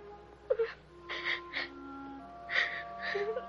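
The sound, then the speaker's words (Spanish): Children crying and whimpering in short wailing bursts from a 1964 fantasy musical film, with soft sustained musical tones running beneath the sobs. “Van llorando a la puerta.”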